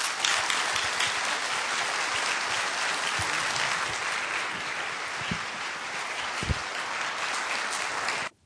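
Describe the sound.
An audience breaks into sustained applause to welcome a speaker and his parents. The clapping is dense and steady for about eight seconds, then cuts off abruptly.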